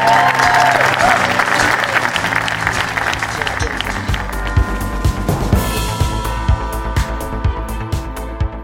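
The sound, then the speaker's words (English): Theatre audience applause at the Duchess Theatre after an evening's interview: loud, dense clapping that thins out partway through and gives way to music with a steady beat. “a round of applause for everyone at the Duchess Theatre and everyone at Avalon who made tonight possible”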